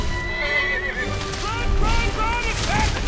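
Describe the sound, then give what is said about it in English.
A donkey gallops down a street, its hooves clattering in a quick, uneven rhythm beneath loud whinnying cries and a dense, busy rumble of commotion. “Donkey gallops down the street.”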